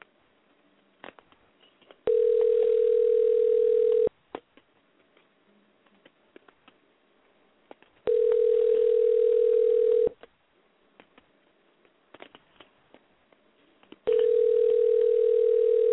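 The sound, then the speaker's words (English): Three long, steady telephone tones ring out on an outgoing call, each lasting about two seconds and separated by even pauses of roughly four seconds. Faint clicks and ticks sit in the quiet gaps between them. “I'm gonna call him right now, so we're dialing him live on the air right now.”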